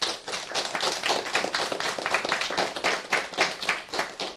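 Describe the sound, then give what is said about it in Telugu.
A school audience clapping for a children's song, with many quick claps that merge into dense, lively applause and pulse slightly in level throughout, with no voices. “చాలా చక్కగా గానం చేశారు కదా, మరి వారికి చప్పట్లు కొడదామా?”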